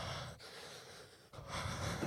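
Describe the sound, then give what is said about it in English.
A person's voice imitates creepy heavy breathing with slow, drawn-out breaths. The breathing is raspy and airy, each breath seems to last almost a second, and there is a brief break between breaths. “And it's just like 30 seconds of breathing.”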